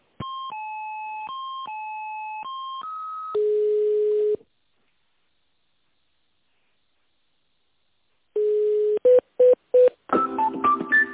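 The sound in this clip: Telephone line tones play while a call is transferred to a technical department: alternating two-pitch electronic tones for about three seconds, then a steady lower tone, a pause, one more steady tone and a few quick beeps.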